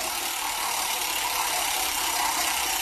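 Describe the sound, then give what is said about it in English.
A spinning prize wheel gives a dense, even, rattling whir of rapid clicks that holds a steady loudness throughout, with no talking. “go ahead and spin the wheel.”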